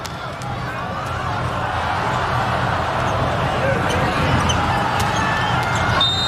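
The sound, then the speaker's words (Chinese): Volleyball bounced a few times before a serve during a match, the thuds faint beneath loud, continuous crowd noise. “王鹤斌来发球。”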